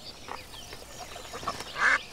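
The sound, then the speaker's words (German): Duck quacking: a few short, nasal quacks, faint at first and ending with a louder call. “Warum essen wir nicht die Ente?”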